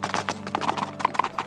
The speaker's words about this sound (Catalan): va guarnir i ensellar el cavall més ràpid que tenia a l'estable, i va muntar